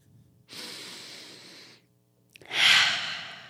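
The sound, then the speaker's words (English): Deep breathing: a long, airy inhale lasting over a second is followed, after a short pause, by a louder, breathier exhale that slowly trails off. The breaths are heard alone, without talk. “nice, good, deep breath”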